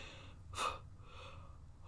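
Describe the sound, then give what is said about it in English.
A deep breath taken to calm down: one sharp, airy inhale, then a few softer, quieter breaths, faint and without talk. “I need to like take a breath”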